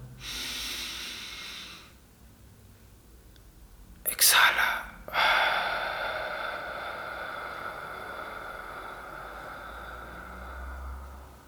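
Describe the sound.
A deep diaphragmatic breath in a breathing exercise, swelling chest and abdomen: soft, airy breathing with a sharp, louder rush of air near the middle, then a long breath that slowly fades.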